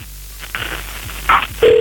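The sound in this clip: Telephone tones as a call is placed: a short tone burst, then a steady, fairly loud held tone through the final moments, with no voices.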